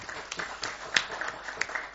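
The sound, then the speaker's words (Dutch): Applause from attendees at a council meeting, a light, fairly steady patter of clapping from a small group, with a few sharper individual claps standing out. “nu we toch aan het klappen zijn”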